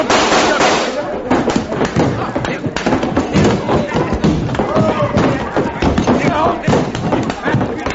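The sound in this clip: Gunshots ring out from a gun grabbed off a table, a quick run of sharp bangs inside a dense, busy din, with people talking over the commotion.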